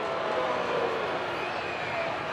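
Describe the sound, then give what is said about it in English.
A spirited baseball crowd at a night game makes a continuous, fairly soft wash of murmuring and cheering, with no distinct claps or peaks. “This seems like a good baseball crowd tonight. Spirited crowd.”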